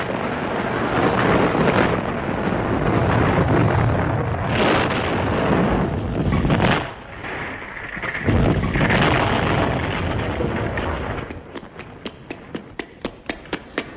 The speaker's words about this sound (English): Here, that gunpowder exploded.